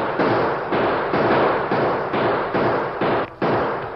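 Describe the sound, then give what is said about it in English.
Gunshots fired from cover behind rocks, a rapid series of loud booming reports following one another in a steady rhythm, each with a short decaying tail. “Then, from the cover of some rocks, they opened fire.”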